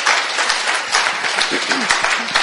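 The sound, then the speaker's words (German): Audience applause for a worship band at a church gathering: dense, steady clapping that fills the whole stretch at a fairly loud, even level, with a faint voice mixed into the crowd noise. “Can we give it up to the worship band? Können wir einen Applaus geben?”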